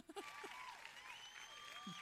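Soft applause rises from an audience during a quiz segment at an event. The even, faint clapping continues steadily, with a few stronger bursts near the start.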